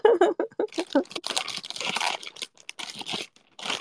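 Plastic bags crinkle and rustle as items are packed into them, in many quick, irregular crunchy bursts of fairly soft sound.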